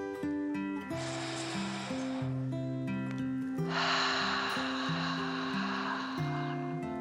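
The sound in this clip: A calm, deep breath in and out: two long, soft, airy whooshes over gentle, steady tonal music, quiet throughout.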